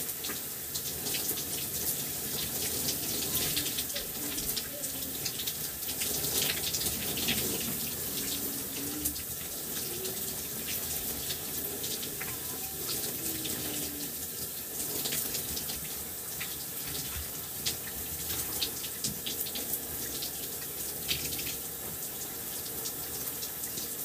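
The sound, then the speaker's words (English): Water runs steadily from a tap while hair is rinsed, a continuous, even hiss and splash with small fluctuations where the flow is disturbed. “I'm gonna rinse out my hair.”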